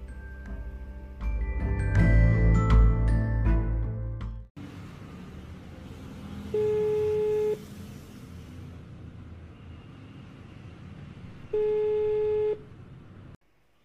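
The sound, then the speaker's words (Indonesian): Ringback tone of an outgoing telephone call: two steady, identical one-second tones separated by a few seconds of quiet hum, following a louder, busier opening section. “Aku mulai mencari namanya, lalu menelponnya.”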